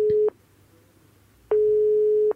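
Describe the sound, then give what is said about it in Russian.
Telephone line tone heard while dialing a wedding agency: two steady, mid-pitched electronic beeps, a short one followed by a longer one, separated by about a second of near silence. “прямо сейчас наша звукорежиссера набирает телефон свадебного агентства”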